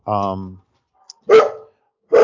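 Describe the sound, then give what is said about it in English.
Dogs barking in a few loud, separated bursts, each barrage sharp and clustered, with quiet gaps between them. “we need to talk for a second because dogs are going crazy here.”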